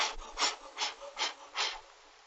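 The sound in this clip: A voice imitates panting: four even, breathy exhalations at a steady rhythm, soft and hissing, with nothing else around them.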